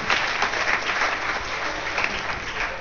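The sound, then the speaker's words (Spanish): Audience applause at a talk during a hacklab event, dense and steady clapping that keeps an even loudness throughout, with no voices over it. “igual abrimos un aplausómetro”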